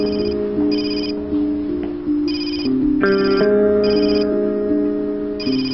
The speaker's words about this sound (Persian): ببخش من این تلفن رو جواب بدم